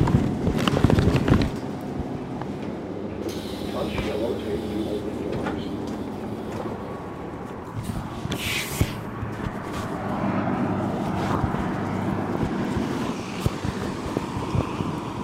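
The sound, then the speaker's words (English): A city bus in Baltimore rolls along and pulls up to a stop on Dundalk Avenue. A steady low engine rumble mixes with rattling and clatter, and voices are heard faintly underneath. “The city blocks have given way to faster traffic, and she is rolling up to her bus stop now.”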